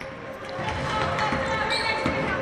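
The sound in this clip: A basketball dribbled on the court during a women's college game involving Stevens Point. A few dull bounces sound over steady crowd noise.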